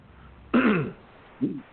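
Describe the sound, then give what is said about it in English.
Throat clearing from a person whose throat keeps clogging up: a loud, rasping burst followed by a second, shorter and quieter clearing, with no talk. “I am trying to keep a clear throat, but it keeps clogging up.”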